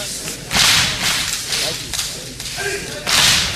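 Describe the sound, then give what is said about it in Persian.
Hands beat against chests in a steady series of sharp, loud slaps, each strike a crisp smack repeated at a fairly even rhythm. “سینه تو بزن،”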